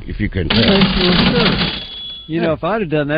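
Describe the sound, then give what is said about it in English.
A cash register sound, a brief clattering, rattling burst of about two seconds with one bright tick, set between stretches of a man talking. “that was the sound of the cash register.”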